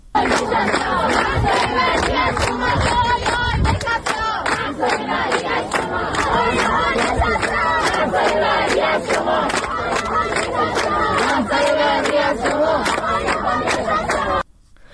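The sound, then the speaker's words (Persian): A crowd of students chants protest slogans at Islamic Azad University's Sohanak branch in Tehran. The loud, rhythmic shouting of many voices continues unbroken for the whole clip. “صبح امروز هم دانشگاه آزاد تهران واحد سوهانک شعار دادند به خاطر شهیدان راحت ادامه دارد.”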